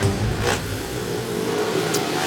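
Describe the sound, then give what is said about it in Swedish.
Racing engines roar at the start of a reserve heat at a motor stadium in Eskilstuna. The rumble is dense, steady and loud, with no voices. “Några sekunder, starten i det 12:e heatet mellan Smederna och Dackarna på Eskilstuna Motorstadion.”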